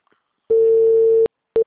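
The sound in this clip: A telephone ringing tone sounds while a call is placed: one steady, loud mid-pitched tone lasting under a second, then a short gap and the start of another tone that cuts off quickly.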